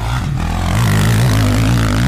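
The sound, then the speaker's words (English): A motorcycle rides off, its engine giving a loud, throaty, rumbling drone that holds steady for about two seconds. “Why am I riding off on a motorcycle?”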